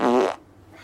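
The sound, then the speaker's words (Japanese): A single short fart, loud and buzzing, lasts about a third of a second and then stops, leaving only faint background hiss. “じゃあおなら出します。”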